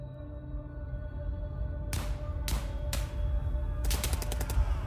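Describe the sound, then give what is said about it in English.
Machine guns firing on a First World War battlefield across no man's land: several sharp cracks, then a rapid burst of shots, over a constant low rumble. “The shelling had stopped. Their machine guns were still firing.”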